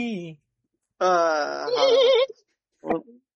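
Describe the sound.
A human voice imitates a mare neighing with a sustained, wavering, quavering cry lasting over a second. A brief vocal sound comes before it and a short voiced burst follows.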